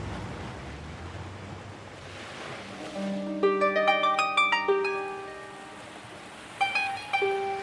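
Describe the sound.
Sea waves by the shore at Jaffa make a steady, rushing wash of surf. Midway, a melodic tune of plucked-sounding notes rises over the waves.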